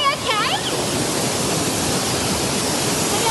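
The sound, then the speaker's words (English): Roar of the Hetchy Hetch Waterfall: loud, continuous rushing white water that fills the whole clip without a break. A voice speaks briefly at the start. “So here we are at the Hetchy Hetch Waterfall.”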